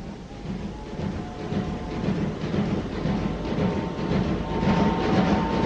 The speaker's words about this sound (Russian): Пассажирский идет, слышишь?